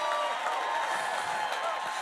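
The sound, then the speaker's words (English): A church audience claps in a dense, steady wash of applause that holds an even level throughout, with voices mixed into the crowd noise. “Jesus, a big clap in the house right here.”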